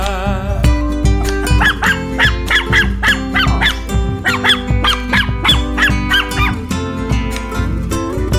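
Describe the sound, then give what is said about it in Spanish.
Many sharp dog barks repeat in a steady, even rhythm over a loud, continuous musical backing. “¡Fuera, perro!”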